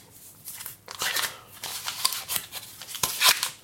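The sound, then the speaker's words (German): Paper wrapper crinkling and rustling as a block of butter is unwrapped while baking, with a run of crisp, uneven crackles and rubbing bursts that swell and fade throughout. “Ich packe gerade meine Butter aus.”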